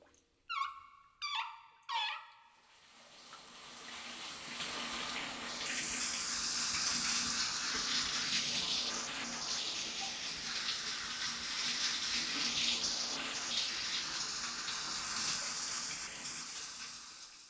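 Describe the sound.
Water runs steadily from a tap while someone's hair is washed, a broad, even hiss that lasts to the end. Three brief, high squeaks come just before it starts.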